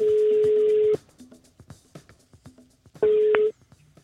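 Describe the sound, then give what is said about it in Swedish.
An outgoing telephone call rings: two bursts of a steady ringing tone, a long one and then a shorter one, separated by a gap filled with faint clicks and taps. “just nu sitter han hemma i Vänersborg och väntar på att vi ska ringa upp honom”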